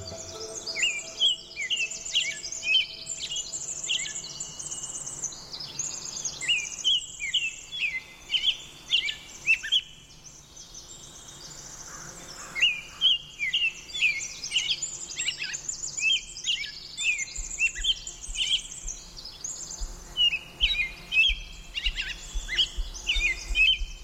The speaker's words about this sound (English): the rains become less frequent, the Pacific chorus frogs begin, the bird songs, the varied thrush. Let's listen.